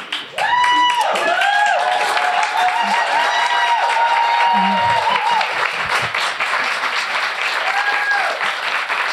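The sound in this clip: An audience at a live show applauds and cheers as a guest is welcomed on stage. Loud, sustained clapping runs throughout, and whoops and shouting voices rise over it.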